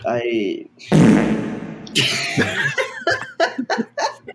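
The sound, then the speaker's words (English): A fart, a brief, loud, low rasping burst, bursts out amid people talking, followed by choppy laughter-like sounds. “You just farted at me?”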